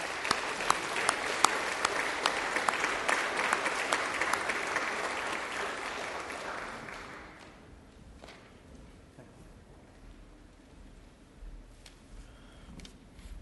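A church audience applauds to welcome the bishop's representative in the sanctuary. Dense, steady clapping lasts about seven seconds, then fades to a low hush with a few scattered thumps.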